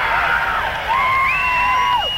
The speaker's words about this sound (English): Sounds like 30% of the audience will make some noise, but they won't really skip the audience participation.